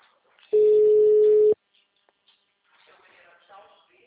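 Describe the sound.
A single steady, mid-pitched ring-back tone sounds for about a second while a phone call is placed, then faint talking follows.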